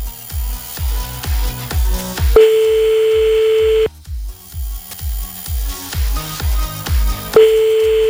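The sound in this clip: An outgoing phone call rings through, as a ringback tone while a call is placed: two long, steady, mid-pitched tones separated by a pause, over a rhythmic thumping pulse.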